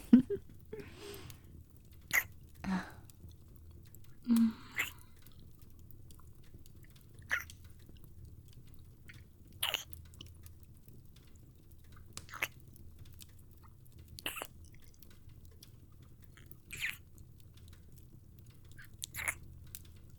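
Someone chews food after taking a taste, giving quiet, irregular crunching bites and soft mouth sounds spaced through a hushed background, with many small crisp bursts rather than a steady rhythm.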